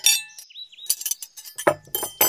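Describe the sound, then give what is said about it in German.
Cups, plates, glasses and cutlery are set on a table, giving a few sharp, irregular clinks and knocks of crockery and glass with short pauses between them. “stellte Tassen, Teller und Gläser darauf und legte das Besteck daneben.”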